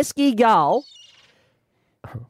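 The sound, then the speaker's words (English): A gull's cry: a couple of short loud bursts, then a longer harmonic call that falls in pitch, followed by silence and a brief low sound near the end. “a pesky gull. There we go. That was very far away to begin with. He got close. He got in. He's right here in the room now. They got gulls in Scotland.”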